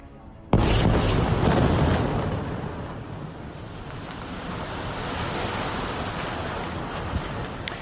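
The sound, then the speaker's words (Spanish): Destruction of the Gafri Tower, the tallest building in Gaza, in Gaza City's port area: a sudden loud blast bursts in, then a heavy roaring rumble that eases slightly and continues to the end. “Lo que has escuchado es la destrucción de la Torre Gafri en la zona portuaria de la ciudad de Gaza, el edificio más alto de la franja.”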